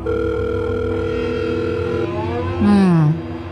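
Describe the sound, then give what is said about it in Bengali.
A telephone tone during a phone call: a steady, humming tone held for about two seconds, then a louder sliding tone that dips in pitch before dropping away. “শুভদীপবাবুর নাম্বারটা নিয়ে এসেছিল তিস্তা, তাকে একবার phone করল।”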